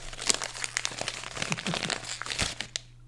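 Wrapping paper is crinkled and torn open as a gift is unwrapped, in many quick, irregular crackling and ripping bursts over a faint low hum, with no voices.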